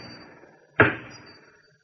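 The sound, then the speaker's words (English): A heavy door knocker strikes a massive oak door once, a deep, solid thud that quickly decays over faint background noise. “I lifted the heavy knocker and then let it fall.”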